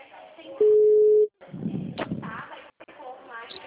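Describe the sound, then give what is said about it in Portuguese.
A single steady telephone tone sounds after a dropped phone call, loud and even for under a second, then stops abruptly. Talk resumes right after it. “caiu a ligação aqui.”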